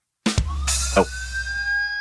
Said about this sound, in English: Sirens are coming.